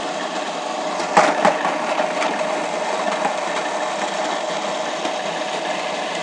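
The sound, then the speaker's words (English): A kitchen food processor spins round, blending cheese and leaves, with a steady whirring motor hum. A couple of brief clattering knocks come near the start, and the sound stays fairly faint throughout. “And then hit the on button. Oh, it's spinning round and round.”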